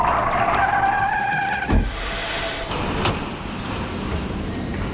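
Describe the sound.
A racing car drives and skids, with a squealing, tonal whine over engine roar at first, then a brief thump and continued loud rumbling road noise to the end.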